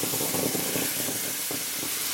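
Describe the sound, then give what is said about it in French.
Liquid nitrogen boils off around a hot superconductor, giving a steady, dense hiss of escaping vapour that holds at an even loudness throughout without clear breaks. “il va faire de la vapeur d'azote, il va s'évaporer très rapidement, et donc entre l'azote liquide et le supraconducteur, il y a de la vapeur.”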